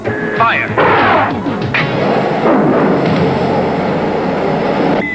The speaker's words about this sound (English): gun that shoots the magnetic bombs